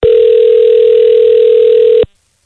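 Steady telephone dial tone heard while calling someone back: a single unbroken, loud, even hum lasting about two seconds before it cuts off abruptly.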